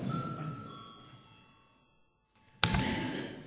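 A chairman's bell rings during a parliament session, starting abruptly near the end after a quiet stretch and continuing as a loud, sustained ringing.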